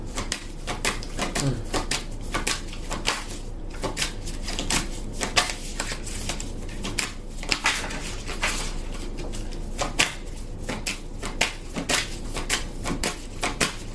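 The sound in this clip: Playing cards being shuffled and drawn: a rapid, continuous patter of many crisp clicks and flicks at an even, moderate loudness.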